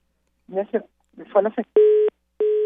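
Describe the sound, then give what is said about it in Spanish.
Two steady, identical telephone tone beeps from a dropped phone call, each lasting about a third of a second, follow a short stretch of talk. “se nos cortó la llamada. Vamos a tratar de retomar esta llamada con Lucía de Los Ángeles Díaz”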